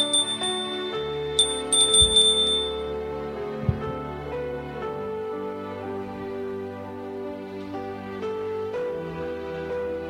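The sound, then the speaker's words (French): A doorbell rings, pressed a second time at a priest's door, giving a few bright, high chiming tones early on amid steady sustained tones. “Il sonne une seconde fois.”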